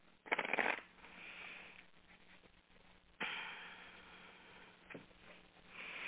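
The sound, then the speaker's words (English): Tarot cards being drawn and shuffled make a few soft, papery riffling bursts, faint and alone, the first the sharpest, with quiet rustling between them. “All right, so I'm drawing your cards.”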